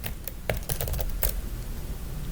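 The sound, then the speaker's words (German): Key clicks from someone typing an SQL query on a computer keyboard: a few sharp, irregular taps in quick succession, then they thin out and stop, leaving a steady low hum. “Wir öffnen nun das SQL-Fenster und schreiben unsere Abfrage”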